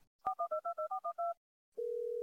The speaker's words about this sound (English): Hold on, I'm gonna call her right now.